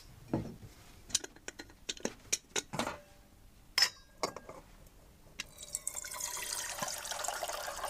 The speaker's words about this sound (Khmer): ឥឡូវនេះដល់ពេលដែលទឹកយើងបានពុះបាទនៅពេលដែលទឹកយើងបានពុះ